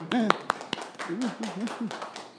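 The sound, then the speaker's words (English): A few sharp hand claps in quick succession near the start, with a person talking over and after them. “Good job. Clap. It's cool.”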